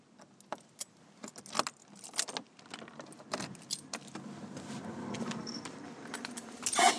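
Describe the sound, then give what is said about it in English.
Keys jangle and clink while someone hunts through a bunch for the right one on returning from a dog walk, with many sharp metallic jingles and louder bursts over a steady low rumble. “Finding my tea. This is a key I need.”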